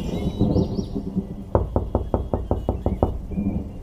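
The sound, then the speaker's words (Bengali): A metal ring knocker rattles hard against a house door in a quick, even run of sharp knocks, with a low murmur of background sound before and after. “ওই দেখো ওই দেখো, যা ভেবেছি তাই, আমাদের বাড়ির কড়া নাড়ছে।”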